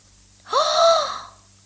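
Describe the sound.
A voice gasps in surprise in a fairy-tale reading: one sharp, breathy inhaled 'ah' that rises quickly, holds briefly and fades, heard alone against a quiet background.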